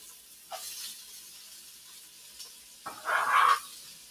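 Carrots and celery sizzle in oil in a pan while a spatula stirs them. Two louder bursts of hissing sizzle rise over a low, steady frying hiss.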